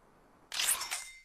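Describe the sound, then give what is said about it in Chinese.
A camera shutter firing to photograph a bird, a crisp, bright mechanical snap in two quick parts, alone against near silence. “要帮红冠照张相，你得说咔嚓。”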